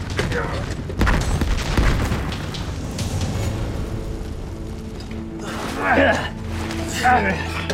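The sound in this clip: A bomb explosion: heavy, low rumbling booms with a couple of strong thuds early on, followed by more rumbling and people talking and calling out over the lingering noise.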